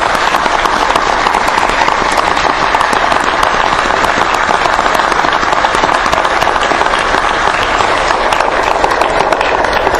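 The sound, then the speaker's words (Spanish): An audience applauds after a speaker asks for a round of support at a speech. Dense, loud clapping holds steady for the full ten seconds, with no voices above it. “Antonio Bonfatti, para lo cual pido que me acompañen con un aplauso.”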